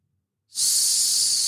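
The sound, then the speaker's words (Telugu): Gas hisses out of a gas cylinder, bursting in abruptly after a brief silence and then holding as a loud, steady, high-pitched hiss to the end. “శబ్దం రావడంతో ఉలిక్కిపడ్డారు అందరూ అది gas సిలిండర్లోంచి వచ్చింది”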